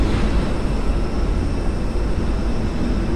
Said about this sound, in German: Ganz schön viel los hier am Flughafen Düsseldorf.